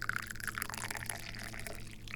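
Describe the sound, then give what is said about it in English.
Tea is poured, a quiet, steady trickle of liquid with faint splashing and a soft low hum beneath, lasting a couple of seconds without talk. “And now we can finally drink some damn tea. Let's do this. I'm pouring it.”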